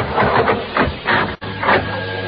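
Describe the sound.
An elevator ascending gives a steady mechanical whirr with rhythmic swelling surges, broken by one brief dropout before the hum resumes.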